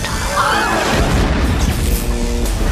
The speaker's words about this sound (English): All stations red alert. Brace for impact. Fire quantum torpedo.